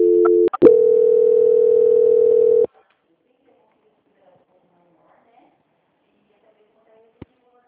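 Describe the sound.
A telephone line tone plays during a call transfer, a steady, loud, mid-pitched hum of about two seconds after a couple of sharp clicks. Near silence follows, broken only by faint clicks and one sharper click near the end.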